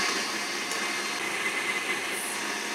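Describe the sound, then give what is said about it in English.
Electric mixer running on high, beating egg whites with cream of tartar for an angel food cake, a steady, even whirring drone that holds at one level throughout. “and then I'll just throw the mixer on high. While the whites are beating”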